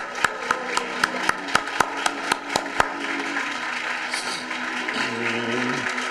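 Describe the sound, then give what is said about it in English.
Applause at a church gospel gathering, led by about eleven sharp, evenly spaced rhythmic claps over a low background, followed by a quieter stretch once the clapping stops. “Let's give the Lord a hand.”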